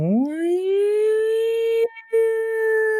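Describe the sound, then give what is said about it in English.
A siren wail from emergency vehicles headed toward a university campus, heard off in the distance. Its pitch sweeps quickly upward, then holds a steady, sustained tone, breaks off briefly and resumes at the same pitch. “the sound of sirens headed toward Pitt University and the Cathedral of Learning.”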